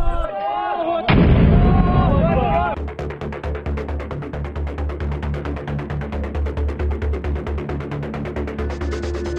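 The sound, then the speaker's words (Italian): Artillery bombardment in a city under siege, Aleppo, shelled by the Syrian army. A voice and a loud burst come first, then a long run of many rapid, heavy booming blasts pounds on at a steady rhythm. “sotto assedio da parte delle truppe di Assad, i ribelli con armi leggere soprattutto resistono ai bombardamenti dell'esercito siriano”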